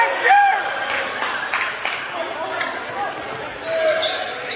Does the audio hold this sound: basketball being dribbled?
yes

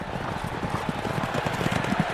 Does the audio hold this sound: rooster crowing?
no

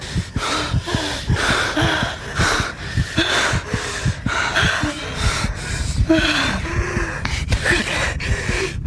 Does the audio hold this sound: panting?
yes

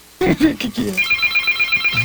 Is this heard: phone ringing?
yes

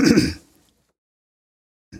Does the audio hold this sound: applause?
no

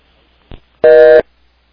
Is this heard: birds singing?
no

